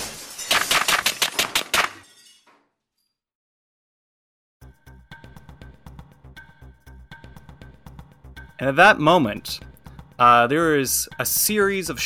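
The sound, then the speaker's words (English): Silenced pistol shots are fired through a window in a tabletop role-playing game scene, heard as a rapid burst of sharp, crisp cracks at the start. A quiet pause and low hum follow, then people talk. “Just 1, 2, 3. Silenced pistol shots that go up there.”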